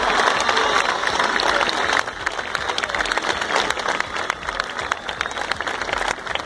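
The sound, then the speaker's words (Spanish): Loud, dense applause from an audience after a speech at a gathering, with many overlapping claps in a steady wash that lasts the whole clip and no talking. “Muchas gracias, un aplauso y por favor, ojalá ya hayan entendido el mensaje.”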